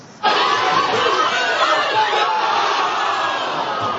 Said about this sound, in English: And this was a scene at the Portuguese Community Center Les Amis Unis in Gatineau, where dozens of fans cheered their team on.